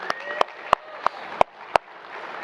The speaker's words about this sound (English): By the way, can we just give a clap of thanks for Jacob Wood, our guest worship leader today?